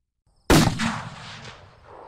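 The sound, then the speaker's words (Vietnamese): A single gunshot cracks out suddenly after a moment of quiet. The loud, sharp blast trails into a long, decaying rumble that fades over about a second and a half. “Âm thanh nòng súng vang lên”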